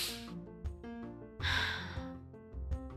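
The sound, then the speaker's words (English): Breathing exercise of two inhales and one long breath out: short airy breaths and a longer sighing exhale, fairly soft, over a bed of sustained music. “Two inhale, long breath.”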